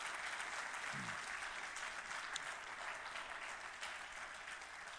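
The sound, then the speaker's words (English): Audience applause for veterans at a Crossroads Ministries church service: a steady, even wash of many hands clapping, holding at a constant level from start to finish with no voices standing out. “these guys are definitely heroes. Let's give them another hand.”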